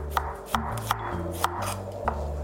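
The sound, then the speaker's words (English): Knife thinly slicing garlic for pancake batter: five crisp, sharp knocks at uneven intervals, each short and distinct above a steady low background. “So I'm just going to slice the garlic very thinly.”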